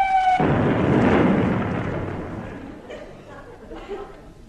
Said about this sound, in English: What was that? Oh, didn't I tell you? It's the long-range artillery school practicing. Don't worry, they all pass over the camp and fall into the sea.